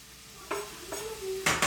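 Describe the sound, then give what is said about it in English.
Onions and garlic sizzling as they hit a hot pan: a few short bursts of hissing sizzle, the last two louder and brighter, with quieter cooking noise in between. “the minute the onions and the garlic hit the pan”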